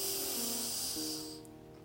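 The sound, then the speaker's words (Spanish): A deep inhale through the nose during a guided relaxation breathing exercise: a long, steady, airy hiss lasting about a second and a half, then fading away over soft sustained low tones. “Ahora cierra los ojos y toma una respiración profunda por la nariz. Inhala”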